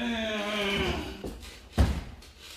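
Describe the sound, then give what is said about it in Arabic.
A prison door is opened with two dull, heavy thuds, the second louder. A voice trails off just before them. “افتح الباب يا سجان.”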